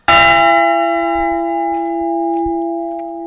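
A bell rung as a loud demonstration peals out in one heavy strike, then its rich harmonic tones hang and ring on steadily, fading only slightly over a few seconds.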